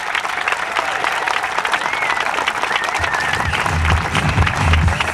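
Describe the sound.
A festive crowd claps and cheers at the opening of a Brazilian football park in Esbjerg. The clapping and crowd noise are dense and steady, and a lower rumble joins in partway through.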